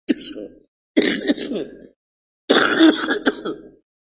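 Harsh coughs and throat clearing from a man during a religious sermon, arriving as a few separate loud, rasping bursts with short silences between them.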